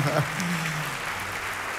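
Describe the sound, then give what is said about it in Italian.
Theatre audience applause forms a steady, dense wash of clapping that holds at an even level, with a voice heard briefly over it near the start. “Oh, l'applauso del teatro se l'è meritato.”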